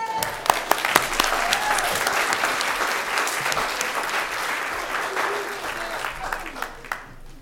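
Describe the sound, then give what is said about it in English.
Audience applause from parents, grandparents and friends for students at a school event: a dense, sustained wash of clapping with sharp individual claps standing out, holding steady for several seconds before tapering off at the end. “Let's give them another big round of applause.”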